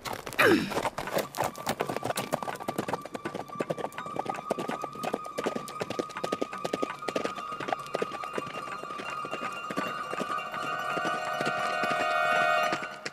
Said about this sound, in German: sie gab ihrem Pferd die Sporen und sprengte die schmale, gefährliche Straße entlang.